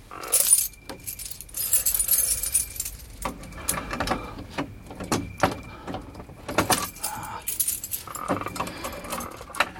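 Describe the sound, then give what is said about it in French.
A burglar's skeleton keys jangle metallically at a sealed door lock: many bright, irregular clinks and rattles in short bursts, loud at first, then continuing in scattered jingles with brief pauses. “Les scellés sont toujours sur la porte. C'est bon, le proprio est absent. Normal, il navigue. Julien Viaud, officier de marine. On va alléger sa cargaison. Passe-moi les caroubles.”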